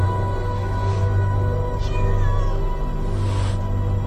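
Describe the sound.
A black cat meows, sitting on an old man's lap as he strokes it. A few drawn-out, wavering meows rise faintly above a steady, loud low hum that runs through the whole clip.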